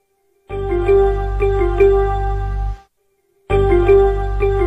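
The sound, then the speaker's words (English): The ESPN app notification sound is a bright, melodic electronic chime with a few quick notes. It plays twice, with a short silence between, and the second play is cut off. No one speaks. “Okay, that is what the ESPN sound app sounds like.”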